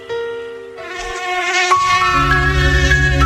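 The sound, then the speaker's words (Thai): Buzzing of a dengue-carrying Aedes mosquito: a steady, high, harmonic whine that holds throughout, with a low rumble building underneath in the second half. “แต่เสียงนี้คือสัญญาณอันตรายพาหะโรคร้ายไข้เลือดออก”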